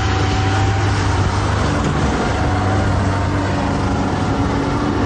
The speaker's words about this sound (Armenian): Մեր նկարահանման պահին, սակայն, շինհրապարակներից մեկից դուրս եկող բեռնատարը փոշին իր հետևից տարածեց ամբողջ ճանապարով։